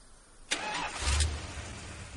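A car engine starts with a sudden burst, then settles into a steady low rumble that swells briefly as the vehicle reverses across dusty ground.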